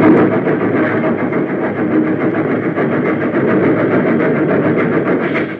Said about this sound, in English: Nearer and nearer it came, until finally the engine rushed into the funnel, and one by one the cars followed.